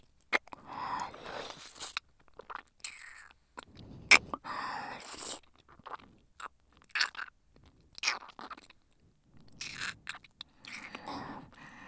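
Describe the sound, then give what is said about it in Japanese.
Wet mouth sounds of an ear being licked in an ASMR setting: many soft, irregular smacks, clicks and slurps, quiet and close, with no talking. “ママにお耳舐められてるから？もっと舐めてほしいの。”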